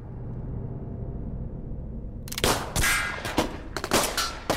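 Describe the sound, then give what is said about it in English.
Gunfire at an indoor shooting range, with a rapid, irregular series of sharp, loud cracks breaking in after a stretch of steady low rumbling noise. “You sure this is okay to shoot all this ammo off?”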